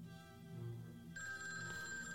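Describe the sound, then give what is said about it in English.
A telephone rings: a steady, bright electronic ring begins partway through and sustains over a low background hum. “Phone's ringing.”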